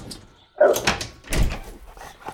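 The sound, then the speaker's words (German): A dog gives a few short, gruff barks indoors. The barks are loud against an otherwise quiet background, separated by brief pauses. “Aus! Halt die Klappe! Los, Platz!”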